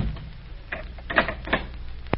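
A door being closed and its bolt shot: a few faint, sharp mechanical clicks and knocks spaced apart over a low background hiss.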